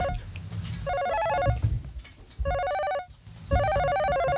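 A telephone rings with an incoming call: three electronic ring bursts of bright, steady pitched tones, separated by short gaps.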